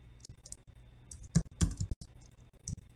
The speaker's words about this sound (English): up in your upper right corner, you can see a place called chat, and I'll type it in here.